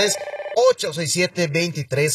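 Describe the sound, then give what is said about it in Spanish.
A telephone rings for an incoming call on a Spanish-language radio call-in show: a bright, tonal ringtone that holds steady at first, then breaks into a quick string of rhythmic pulses. “Tenemos la primera llamada de la noche en este jueves.”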